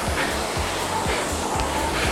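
Rowing machine flywheel whirring up to speed, a windy whoosh that surges in a few regular pulses with each stroke, loud and steady with no voices.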